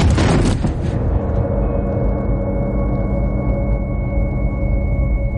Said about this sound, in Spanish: Uno de los policías dispara a Jimmy en el vientre.